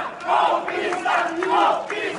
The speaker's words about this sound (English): That's the sound of Brazil's brand new interim president being jeered in the country's Senate.